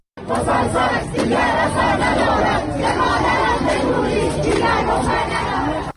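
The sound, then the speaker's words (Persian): Students chant in unison at a university protest in Babol, Iran, a dense, loud roar of massed voices sustained throughout before ending abruptly. “صدای دانشجویان در دانشگاه نوشیروانی بابل.”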